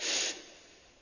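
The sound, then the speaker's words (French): A calm, slow inhale through the nose during a guided breathing exercise: a soft, airy hiss that swells at the start and then fades gently over about a second. “Une dernière fois, j'inspire tranquillement par le nez”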